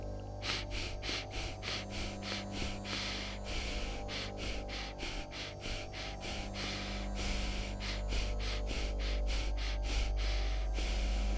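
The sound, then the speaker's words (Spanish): Rapid, forceful breaths in a pranayama breathing exercise, cycles of four short inhalations and exhalations followed by a longer fifth, repeated many times over a low, steady background drone. “y es una respiración que consta de cuatro inhalaciones y exhalaciones cortas y una quinta inhalación y exhalación más larga, generando un ciclo que puede realizarse así.”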